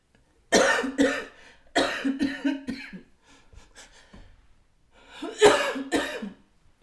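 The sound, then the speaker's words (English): A person coughs in three separate clusters of harsh bursts, with faint breathing in the quieter gaps between them. “excuse me, guys. Ooh, see, I'm coughing.”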